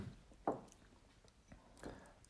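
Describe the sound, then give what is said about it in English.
Soft, wet slurps from someone tasting drinks side by side. A few brief, faint sips stand out against a quiet background. “Apologies for the slurping.”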